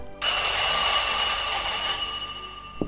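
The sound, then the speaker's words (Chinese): A telephone bell rings in one long, steady burst, bright and metallic with a sustained tone, holding evenly for most of its length before easing off slightly at the end. “电话。 我来接。”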